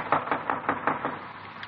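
Knocking on a front door, a steady series of even, hollow raps at a quick regular pace, heard alone without voices.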